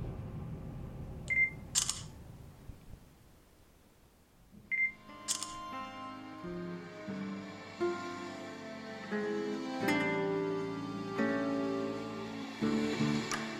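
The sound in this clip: Camera taking a group photo: two crisp shutter clicks, each just after a short high focus beep, with quieter tonal sound continuing afterward.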